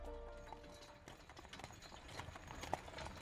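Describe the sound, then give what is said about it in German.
Hooves of a tall black coach drawn by six black horses clip-clop in a quiet, steady, continuous rhythm. “Aber wie erstaunt war Mick, als er dicht neben sich eine große, hohe, schwarze Kutsche entdeckte, die von sechs schwarzen Pferden gezogen wurde, mit langen schwarzen Mähnen”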